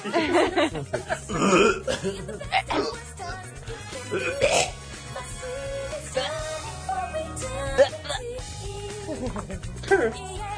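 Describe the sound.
Loud belching bursts, a few of them, mixed in among people talking and other busy sounds, each a rough, throaty gurgle that rises and fades irregularly.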